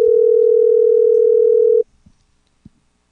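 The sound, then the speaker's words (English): A telephone tone while a call is being placed: one steady, unbroken, loud tone that cuts off abruptly, followed by a couple of faint clicks and then near silence. “We're going to try calling Dave.”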